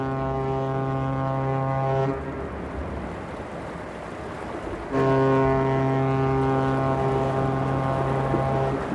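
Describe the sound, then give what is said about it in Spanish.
A ship's foghorn sounds two long, deep, steady blasts, the first cut off and the second starting after a gap of a few seconds filled with rushing wind and sea noise. “¿Un barco? ¿A esta hora? No puede ser. ¿Pero cómo no lo vimos antes?”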